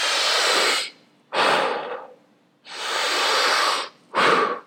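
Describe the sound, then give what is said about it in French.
Deep breathing during a breath-control exercise: four long, airy rushes of breath alternating between forceful inhales and exhales, each loud and steady, with short pauses between them and no talking. “que tu inspires avec beaucoup d'intensité et que tu expires en gardant un tout petit peu d'air.”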